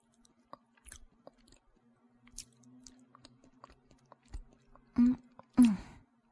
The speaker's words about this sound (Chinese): 谢谢老弟专门给我做的这么丰盛的晚餐，赶紧让我来尝一下吧